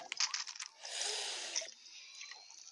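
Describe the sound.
Squishy, gurgling drinking effect as a player drinks small potions, called minis, in a video game: a few quick clicks, then a dense hissing slurp lasting about a second, trailing into fainter, softer sounds.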